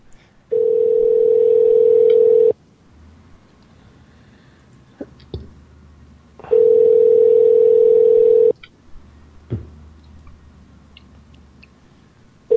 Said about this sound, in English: call him again.